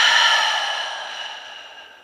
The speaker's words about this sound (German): Ein tiefer Atemzug hier ein. Und durch den offenen Mund aus.